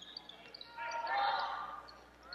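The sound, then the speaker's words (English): A basketball is dribbled during a boys' basketball game, the bounces faint and partly buried under a swelling crowd murmur. “who's going to dribble it into the front court”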